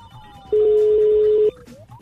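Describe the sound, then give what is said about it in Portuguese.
Ringback tone of an outgoing phone call, heard as one steady, mid-pitched electronic tone lasting about a second over a low background hiss, with no talking. “Vamos ver se vai chamar, né? Começando por aí. Tá chamando, tá chamando.”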